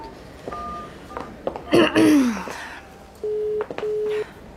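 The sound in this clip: A telephone is dialled and then rings: a few short tone beeps, a brief rustling clatter, then two steady, level ringing buzzes at the end.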